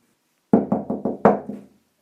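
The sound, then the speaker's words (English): Knocking on a door late at night: six sharp knocks in a quick, uneven series, loud and clear with no other sound around them. “Who the fuck is that at my door?”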